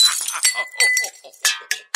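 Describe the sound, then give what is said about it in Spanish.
Glass vases and mirrors fall and break in a quick, bright series of clinks and shattering crashes, crisp and high-pitched, with no low thud beneath them. “había que guardar muy bien todos los floreros y los espejos, porque ante las carcajadas todo temblaba y, claro, se caían las cosas y se rompían.”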